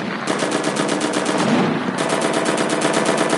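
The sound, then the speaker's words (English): Machine gun fire in a video game: loud, rapid, evenly spaced shots in sustained bursts, many rounds with a brief break partway through, and no talk. “Switch it to your machine gun.”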